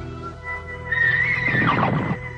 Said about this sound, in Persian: بلند شو و سوار شو. اسب تو رو از پله‌ها بالا می‌بره و از شکاف سنگ عبور